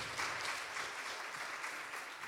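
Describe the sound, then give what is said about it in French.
Audience applause welcoming a guest onto the stage at a talk, a faint, steady patter of many hands that carries on throughout without any voices. “On peut l'applaudir.”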